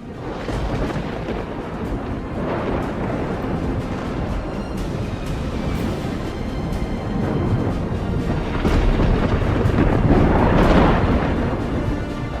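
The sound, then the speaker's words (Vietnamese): Deep thunder rumbles in a loud, unbroken roll as a storm gathers over a battle scene, swelling around a few moments and surging strongest near the end. “những tiếng trống trận ầm ầm vang lên, âm thanh sấm rền xuất hiện”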